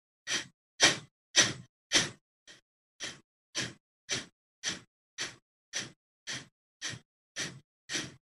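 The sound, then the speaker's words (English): Fifteen forceful 'ha' breaths are pushed out with the navel and tongue drawn in, each a short breathy burst in a steady rhythm about two per second. The first few are the loudest, one is faint, and the rest are even. “connect the ha sound to pulling the navel in. So again, now pull your tongue in and continue to breathe this way.”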